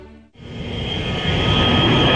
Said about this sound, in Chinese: 清晨，在祖国北疆的一个飞机场上，伴随着阵阵轰鸣声，一架架战鹰接续滑出跑道，呼啸着直冲云霄。